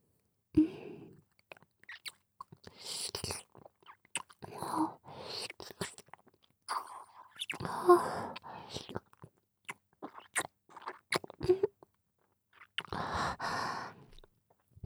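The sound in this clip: Someone eats and licks something off their hands. Many close, wet smacking, slurping and chewing mouth sounds come in an irregular rhythm, with soft breathy pauses between them.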